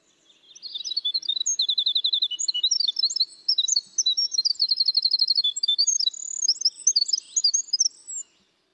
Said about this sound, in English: Let's let everybody listen to this beautiful flute-like sound of the winter wren.